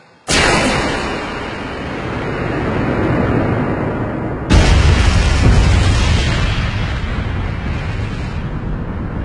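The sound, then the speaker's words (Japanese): Two loud explosions tear through a command room. A sudden blast opens into a long, roaring rumble, then a second, heavier boom hits midway and its dense roar carries on to the end. “爆発箇所は司令室の場所と確認。”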